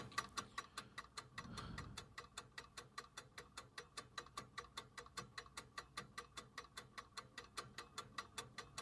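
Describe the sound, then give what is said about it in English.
A clock ticks alone in a faint, steady rhythm, with many evenly spaced sharp ticks from start to finish. “just listen to the clock.”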